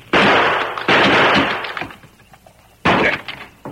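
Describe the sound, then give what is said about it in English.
Gunshots in an outlaw-valley shootout, a few sharp, loud bursts, each trailing off into a rough decay, with smaller cracks between them. “Stand aside! I'm shooting off this lot! Stand aside!”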